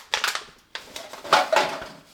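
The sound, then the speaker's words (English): Plastic gallon water bottles crunch and crackle as they are stepped on and flattened for a recycling bag. A few separate bursts of crinkling crushing sound come with short quiet gaps between them. “A gallon of water bottle. Let me step on that. And those to flatten them out so they fit in the bag.”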